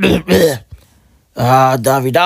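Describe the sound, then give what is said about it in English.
A man's voice imitates throat clearing and coughing with rough, raspy voiced bursts, then a short pause and a longer strained vocal sound. “And he just kept on clearing his throat, like, you know, coughing, and it's weird.”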